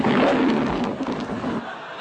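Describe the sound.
A lion's roar used as a home alarm sound. One loud, low, rasping roar carries on for about two seconds and tapers off at the end.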